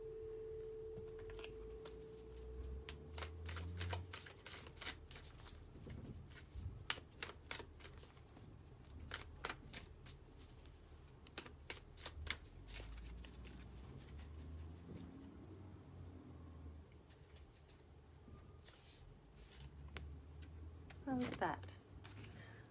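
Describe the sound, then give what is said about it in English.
A card is drawn from a deck amid many crisp, rapid clicks and snaps of cards being handled and shuffled. Bursts of activity come and go, with a brief scraping flourish near the end. “So, I might just draw one more card, I think.”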